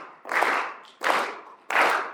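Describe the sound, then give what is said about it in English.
An audience claps in unison at a commemoration of a civil-rights leader. There are three broad, loud bursts of clapping, each fading out before the next, at a steady rhythm with no talk over them. “Let's clap for nonviolent political activity. Let's clap for the beloved community.”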